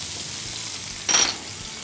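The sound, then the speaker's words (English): White and red onions hitting a hot pan give a short, bright sizzling hiss that flares up briefly and fades over a quiet kitchen background. “I'm just gonna throw the onions in here. We got white, we got red.”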